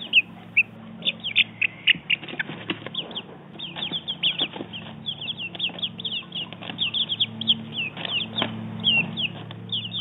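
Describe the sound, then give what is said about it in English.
Four-week-old chicken chicks cheep in many rapid, high, thin peeps that overlap in quick irregular bursts, over a low steady hum. “That was the sound of our 4-week-old chicks.”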